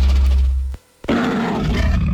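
A lion roars loudly and deeply. The roar breaks off into a brief silence, then returns as a second sustained roaring burst.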